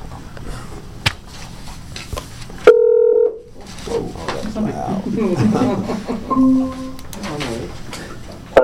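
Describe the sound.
Telephone keypad dialing tones while people join a meeting call: two short, steady electronic beeps, a few seconds apart, with people talking around and between them.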